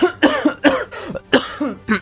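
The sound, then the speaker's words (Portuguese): Harsh, throaty coughing in a series of loud bursts with short gaps between them, and no talk around it. “Deixa eu tossir, peraí.”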